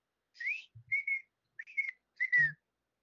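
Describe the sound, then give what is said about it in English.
A person whistles an imitation of a bird call: a few short, high, chirping phrases separated by brief pauses, quiet and alone. “Oh, it's actually like a whistle.”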